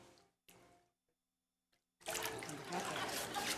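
Water splashing at a church baptism as a father baptizes his son: two brief splashes, then a pause and a sustained, loud rush of pouring, sloshing water.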